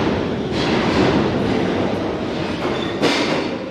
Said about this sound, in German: Hier müssen die Menschen für einen Augenblick zur Ruhe kommen, warten, während das Donnern der Züge jedes Gespräch übertönt.